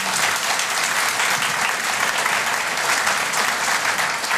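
Audience applause welcoming guests at the Sorrento Writers' Festival: steady, sustained clapping from a crowd, even and full throughout.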